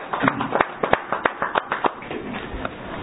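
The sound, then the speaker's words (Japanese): Applause from a church audience celebrating a birthday, a brisk patter of hand claps with several sharper individual smacks standing out, slightly muffled and steady throughout. “皆さん盛大な拍手でお祝いを”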